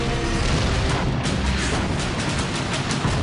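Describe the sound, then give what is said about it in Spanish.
Artillery barrage at El Alamein in October 1942: a dense, continuous roar of massed gunfire. It forms one unbroken wall of rumbling noise without separate distinct blasts. “Todo comienza con una tormenta de artillería.”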